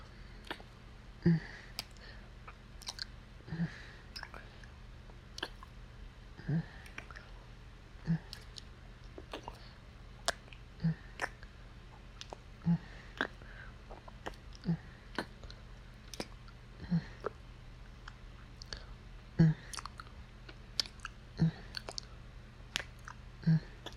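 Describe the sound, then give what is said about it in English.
Soft, wet kissing smacks repeat many times at uneven intervals of a second or two. They are quiet and isolated, with no talk. “Here, kiss me again.”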